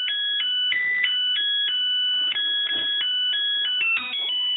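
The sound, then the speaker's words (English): A Zojirushi rice cooker plays its electronic tune when the rice is ready: a steady sequence of clear, high-pitched beeping notes that steps up and down in a simple melody, with no talk. “That's the tune a Zojirushi rice cooker plays once the rice is ready.”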